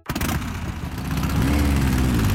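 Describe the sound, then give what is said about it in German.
Vintage motorcycle engine running, a steady, dense rumble that holds without a break and swells slightly louder toward the end, with no voices over it. “Ja, kannst du es hören? Der Klang von Freiheit und Abenteuer, von unvergesslichen Erinnerungen, die Faszination einer ganzen Generation. Die Oldtimer-Motorradausstellung Golden Show Bikes im Südring Center”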